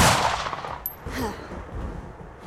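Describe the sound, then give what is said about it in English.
A pistol gunshot fired by a character in a dramatized story, a loud, sharp blast at the start followed by a decaying, noisy tail. “Johnny freed a small pistol from her sleeve, tucked it under his chin before pulling the trigger.”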